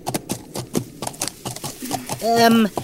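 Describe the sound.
Clip-clopping hooves of a horse as a rider rides ahead in an audio drama, many sharp clops at a brisk, fairly regular pace, moderately loud against a quiet background.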